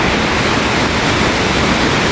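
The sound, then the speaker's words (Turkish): Iguazu Falls on the Argentina–Brazil border roars in heavy flow, about three times its normal volume after intense rain: a loud, dense, unbroken rush of water without pauses. “Şelalelerdeki su akışı normal seviyenin yaklaşık 3 katına çıktı. Ortaya çıkan güçlü akış bölgeye gelen ziyaretçilere etkileyici görüntüler sundu.”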